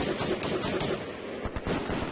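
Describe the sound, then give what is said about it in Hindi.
A light machine gun fires bursts in battle, giving a dense, continuous rattle of rapid sharp shots under heavy noise, with a quick flurry of distinct cracks near the end. “घायल अवस्था में भी पूरी फुर्ती से हवलदार दयाराम ने LMG को संभालते हुए दुश्मनों पर गोलियों की बौछार शुरू कर दी।”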